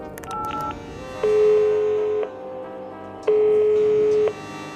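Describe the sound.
Telephone tones while calling a directory information number: a brief higher tone, then two long steady tones separated by a pause, clear and alone.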